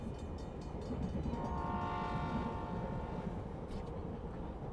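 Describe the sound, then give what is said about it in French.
Train noise at the railway station in Yaoundé, Cameroon: a steady, dense rumble runs throughout, and a sustained tonal horn sounds over it through the middle stretch. “Nous venons d'arriver à la gare ferroviaire de Yaoundé.”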